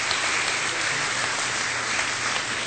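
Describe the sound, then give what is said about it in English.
Applause from a church audience welcoming a family into their community of faith: a steady, dense wash of many hands clapping together, sustained evenly for a few seconds with no distinct breaks. “One more time, can you just give them a hand for joining us as a community of faith?”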